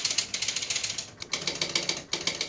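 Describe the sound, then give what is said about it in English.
Startup of an electromechanical pinball machine: many rapid, evenly paced mechanical ratcheting clicks, broken by two brief pauses before the clicking resumes. “I can remember I fell in love with the startup sound of an electromechanical pinball machine, when I was 3 or 4 years old.”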